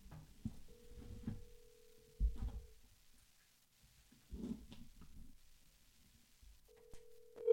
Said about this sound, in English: I texted him and he didn't call me. He didn't reach out back. So now I'll call him on this show.